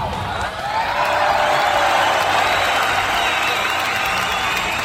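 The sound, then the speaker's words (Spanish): A canned applause sound effect: dense, steady crowd clapping that holds loud and even for several seconds. “al que le vamos a dedicar este fantástico aplauso. Que va a sonar ya, un aplauso enlatadito, un aplauso enlatadito”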